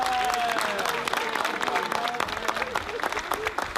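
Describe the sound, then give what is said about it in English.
A church audience claps in welcome after a confirmation, with dense, sustained applause and voices rising through it until the end. “Come on, welcome. Let's give them a hand.”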